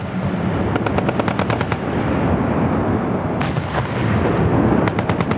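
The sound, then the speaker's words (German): Live automatic gunfire on a military firing range at Hinterrhein: several rapid bursts of sharp shots rattle over a constant, heavy booming roar of continuous firing. “Es wird scharf geschossen auf dem Schiessplatz Hinterrhein. Auch mit einem Gehörschutz dröhnt es in den Ohren.”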